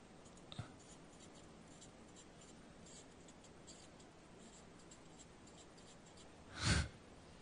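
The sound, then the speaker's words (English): Faint, scratchy strokes of a pen or marker drawing a tree by hand on paper, quiet and intermittent against near silence, with a soft click early on and a brief louder rustle near the end. “I'll draw this one a bit messier because, you know, it's supposed to bear fruit.”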